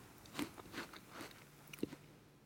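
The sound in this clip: Crisp bites into a sweet Elstar apple: a few quiet crunchy snaps with crackly chewing between them, the last bite sharpest, and no speech.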